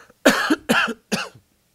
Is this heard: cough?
yes